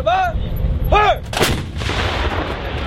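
An artillery gun fires a shell during military training: one loud, sharp blast followed by a long, rumbling tail that slowly fades.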